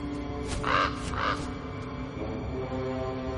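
A crow caws twice in quick succession as it flies out of a mountain. The calls are harsh and mid-pitched over a steady low background drone.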